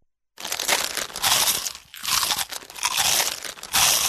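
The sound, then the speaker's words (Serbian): Crisp, dense crunching as someone bites into a small crunchy hazelnut-flavoured snack, coming in a few loud crackling bursts with brief pauses between them and no voices. “Mali hrskavi zalogaj, od sada sa novim ukusom lešnika.”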